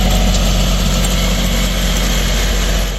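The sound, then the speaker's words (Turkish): Loud, steady engine drone of tractors working a field during summer bean sowing, a continuous low rumble with a vibrating, idling character that holds unbroken throughout, with no voices. “Sessiz tarlalarda şimdi dev traktörlerin gürültüsü yankılanıyor.”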